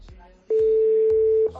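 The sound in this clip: A telephone connecting tone sounds as a caller is put through: one loud, steady, mid-pitched tone that holds for about a second and then stops, with low background noise before and after it.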